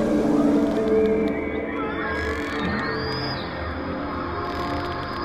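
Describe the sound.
A sound art piece inspired by humpback whale songs: a dense, layered texture of low droning tones with gliding, whale-like calls that sweep upward and fall back, steady in loudness and without speech.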